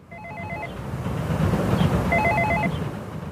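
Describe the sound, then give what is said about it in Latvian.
An apartment building intercom at a multi-storey block in Riga rings after a flat number is dialed. Two short bursts of warbling electronic ring tone sound over steady, noisy street background. “Stāvam pie kāda daudzstāvu namu pļauniekos, un domofonā esam uzspieduši dzīvokļa numuru. Gaidām atbildi.”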